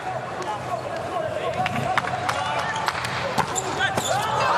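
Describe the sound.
A ball struck on a serve during a match, heard as sharp, brief smacks among several quick impacts over constant crowd noise, with a commentator talking throughout.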